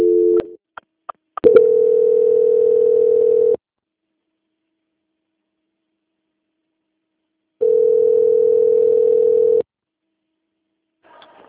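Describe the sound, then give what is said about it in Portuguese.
Telephone line tone during a call transfer. A few sharp clicks lead into a steady mid-pitched tone lasting about two seconds, then silence, then a second identical tone of similar length, with a faint click near the end. “Agradeço sua atenção e peço que aguarde linha, que vou transferir o seu contato para o controle de qualidade.”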